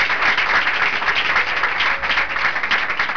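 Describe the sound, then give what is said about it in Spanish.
An audience applauds during a church service with dense, continuous clapping that stays loud and even throughout, with no voices over it. “Y va a aplaudir al Señor, aplauso.”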